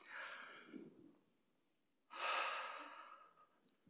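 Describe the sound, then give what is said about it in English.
A deep breath drawn in: a soft rush of air fades out, and after a quiet pause a longer, louder inhale surges and slowly tapers, faint overall. “Let's do that at this moment. Let's take a deep breath.”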